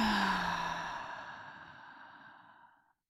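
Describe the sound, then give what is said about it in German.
A single deep, breathy exhale during a guided relaxation breathing exercise, loud at first and then fading gradually over about three seconds until it stops. “Einatmen. Und wieder ausatmen.”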